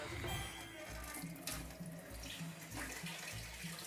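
Water running from a tap in a steady, faint, unbroken rush with no voices over it.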